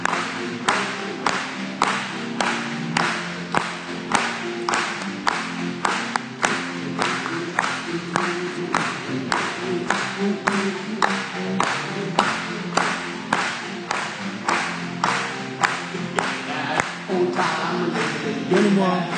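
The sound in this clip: A church audience claps in a steady rhythm, with many evenly spaced claps keeping the beat throughout alongside gospel singing and music.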